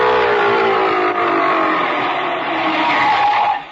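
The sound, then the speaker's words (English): Loud, rough engine roar of an old one-cylinder car arriving, a steady continuous drone that holds evenly before cutting off abruptly at the end. “Uh-oh, here comes the Sky Ranch One Lung Express again. Hold on to your hat.”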